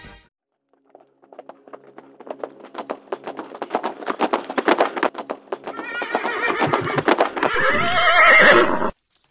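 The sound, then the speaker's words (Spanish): A horse's hooves clip-clop in a Wild West setting, the steps growing louder and quicker, and then the horse gives a loud whinny near the end. “¡Oh, cuánto hacía que no me bajaba de mi caballo!”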